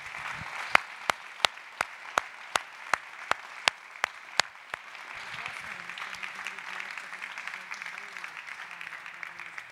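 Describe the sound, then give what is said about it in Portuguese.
Congregation applauding in a church: a steady run of rhythmic claps in unison rings out over a broad wash of applause, which then carries on as loose, continuous clapping. “Você pode aplaudir mais uma vez o Senhor?”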